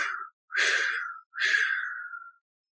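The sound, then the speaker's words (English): Slow, airy exhaling breaths during a guided breathing exercise: a brief breath at the start, then two long, breathy exhales separated by short pauses, with no talk. “And breathe out. And 3 more exhales.”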